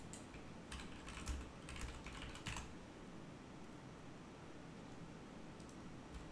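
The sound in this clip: Rapid keystrokes on a computer keyboard, a quiet run of light clicks for about two seconds, followed by near silence with a few faint taps near the end; no one talks.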